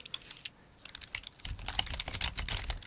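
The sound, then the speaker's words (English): Rapid clicking of a computer keyboard as someone types a search query, faint and sparse at first, then growing denser and busier in the second half. “Just type in spaghetti Western in.”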